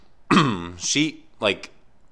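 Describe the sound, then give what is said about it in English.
Someone clears their throat in a few rough, voiced rasps, ending with short throaty bursts; no other sound is heard. “Excuse me. I got to clear my throat. I'm so sorry.”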